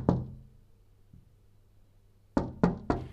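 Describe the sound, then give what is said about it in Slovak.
Quiet knocking on a cottage door: a single knock, a long hush, then three quick, soft raps in a row. “sa ozvalo tiché zaklopanie na dvere chalúbky”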